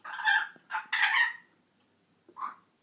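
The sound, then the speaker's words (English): A pet bird tries out new calls: a few harsh, squawky bursts close together, then a short pause and one softer final call, with no talking. “She's making cool new noises. Not doing the cockatiel so much now. She's experimenting with other things”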